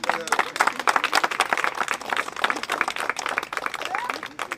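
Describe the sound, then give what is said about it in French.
A small group applauds a man at a photography walk event, with uneven, distinctly separate claps that swell and thin out over a few seconds as voices mix in. “on applaudit monsieur.”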